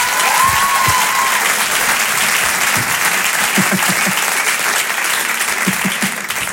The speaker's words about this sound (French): Allez, on peut l'applaudir très fort.